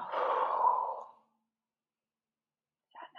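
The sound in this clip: One deep breath during a meditative breathing exercise is exhaled as a long, breathy sigh lasting about a second. Silence follows, then a brief soft sound near the end.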